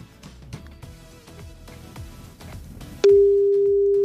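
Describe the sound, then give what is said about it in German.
A telephone ringing tone sounds after dialing: a single steady, loud mid-pitched beep lasting about a second, following a stretch of quieter music. “Ich wähle jetzt, okay, ich drücke es auf, ja. Ich drück jetzt auf Call.”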